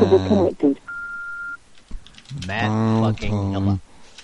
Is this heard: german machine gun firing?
no